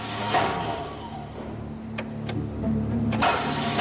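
Car engine cranking over without catching because the car is out of fuel: a low, steady churning whir with a few sharp clicks, never settling into an idle.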